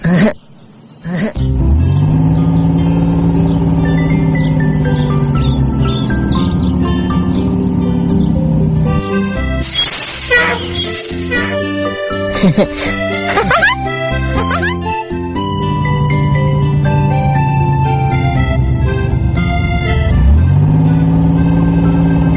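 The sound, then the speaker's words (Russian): A toy monster truck's engine revs as it climbs a steep slope and drives over blocks on one wheel, giving a loud, steady drone that swells and dips in pitch, with jingling tinkles over it. “Машинки, куда вы поехали? Сейчас монстр-трак покажет, как он преодолевает препятствия.”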